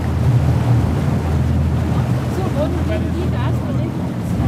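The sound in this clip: A boat running at full speed through harbour water by a ferry quay gives off a steady, loud roar. Low engine rumble blends with rushing water and wind noise, unbroken from start to finish.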